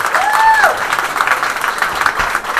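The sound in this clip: Audience applause at a live comedy show on stage: a dense, loud, continuous wash of clapping that holds steady for the whole stretch.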